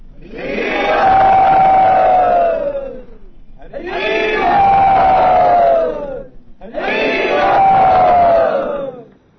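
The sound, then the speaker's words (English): A crowd at a devotional rooftop gathering shouts "Hari Bol" in welcome, three long loud unison shouts with short gaps between them. Each shout carries a sustained sung tone that falls slightly at the end. “So everyone, welcome Brinda Priya and Ranchor back by saying Hari Bol.”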